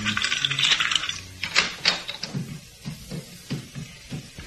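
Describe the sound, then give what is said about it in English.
A set of keys handled and jingling, heard as a run of light metallic clinks and rattles. The taps are brighter and busier at first, then continue as softer, irregular ticks. “There you go, and here are your keys.”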